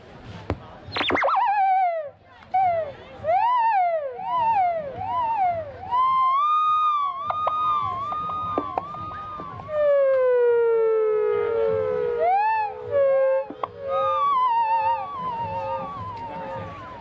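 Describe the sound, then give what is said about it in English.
A theremin played one-handed through a digital delay at an outdoor street fair gives sliding, wavering tones in repeated swoops and glides. Echoed trails hang behind each phrase, and pitch bends up and down like a siren throughout. “Just doing what I do on the theremin and Tibetan singing bowl.”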